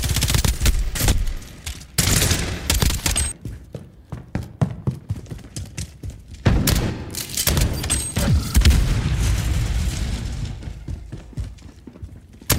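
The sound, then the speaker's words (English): Gunfire and explosions from a military-style shooter video game: loud, dense bursts of shots and booms in rapid succession throughout, with a few brief dips between volleys and no talk. “Now, what you're hearing right now is some audio from the game. It's lots of gunfire, lots of explosions, lots of running around.”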